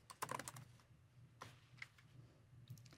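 Faint typing on a computer keyboard: an early flurry of quick key clicks, then sparser scattered taps, with no talking.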